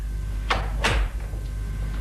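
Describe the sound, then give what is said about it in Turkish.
A door is shut with two quick, soft knocks close together, the second a fuller thud, over a steady low background hum. “Kapıyı kapat”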